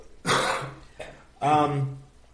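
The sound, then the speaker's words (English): A person coughs: two harsh, voiced bursts with a smaller throaty sound between them, heard on their own without talk. “excuse me for coughing”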